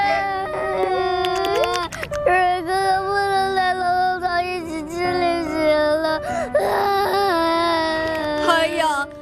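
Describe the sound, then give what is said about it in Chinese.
Several people cry and wail together, with long, drawn-out tones that waver in pitch and overlap. The sobbing runs continuously and fairly loud through the whole stretch. “都别哭了，咱们再想想办法。”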